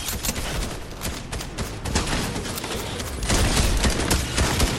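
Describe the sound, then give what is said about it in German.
Rapid gunfire from a ranged weapon in the video game Fortnite, played in zero-build mode against teams, forms a dense, loud, continuous barrage of shots with no clear gaps that grows slightly heavier toward the end. “Okay, ich schieß mit der Range.”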